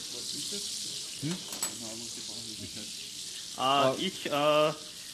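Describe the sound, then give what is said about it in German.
Apple slices that had gone into pancake batter sizzle as they fry in a pan, a steady, hissing crackle that continues throughout at a moderate level. “Kurz zum Kochen, ich brate jetzt die Apfelspalten an, also die Äpfel, die wir da in den Pfannkuchenteig gegeben haben.”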